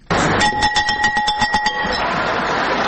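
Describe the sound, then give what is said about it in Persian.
A school bell rung at a ceremony in a Kabul high school gives rapid, loud, bright ringing strokes, many in quick succession for over a second. A noisy wash of sound lingers after the ringing. “رئیس جمهور افغانستان با نواختن زنگ مکتب در لیسه یمانی شهر کابل ابراز امیدواری کرد”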